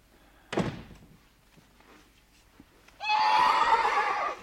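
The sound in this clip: A mare neighs in a loud, shrill, quavering whinny that lasts about a second and a half, after a single dull thunk earlier in the quiet.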